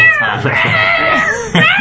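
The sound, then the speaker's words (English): Cat yowling while attacking a person's arm: a sustained, wavering high-pitched howl with rich harmonics, loud throughout, briefly dipping and then swelling again near the end. “You're eating dinner. The cat's still attacking your arm.”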